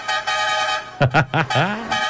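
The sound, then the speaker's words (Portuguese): A vehicle horn honks: steady tooting blasts with a short break, then a run of shorter, wavering pitched tones. “Dá uma chamada na buzina, rapaz.”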